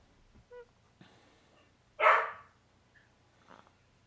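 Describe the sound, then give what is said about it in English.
A dog barks once, loud and sharp, near the middle, with a few faint, short yips and whimpers scattered before and after it. “He is barking at nothing.”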